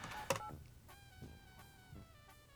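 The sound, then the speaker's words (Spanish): Faint touch-tone keypad beeps as a phone number is dialed: a few short tones spaced at irregular intervals, the first one the strongest. “Yo salgo por la línea número 57, no se diga más, y ahí vamos a marcar de este lado.”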